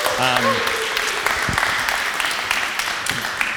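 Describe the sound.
A church audience applauds to welcome a guest preacher. A voice is heard briefly at the start, then many hands clap in a steady, dense patter that carries on to the end.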